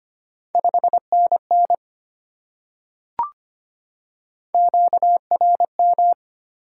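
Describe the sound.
Morse code at 25 wpm sending a 5NN signal report: a steady mid-pitched tone keyed into quick short and long beeps, one group followed by a sharp click and then a second matching group.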